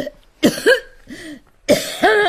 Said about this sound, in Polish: No, no może się wreszcie ciocia wykaszle.